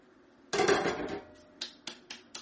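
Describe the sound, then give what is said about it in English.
Half a cup of coconut sugar poured into a pot: a sudden rush of granules hissing and fading over about a second, then a few light, separate taps. “And this goes directly into your pot. Half a cup of coconut sugar.”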